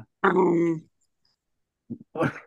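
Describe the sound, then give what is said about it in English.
A dog growls, agitated and trying to bite: one sustained low, throaty rumble, then a few shorter grunting noises after a pause. “what the hell is that your dog? Yeah, he's being an asshole right now. He's trying to fucking bite me.”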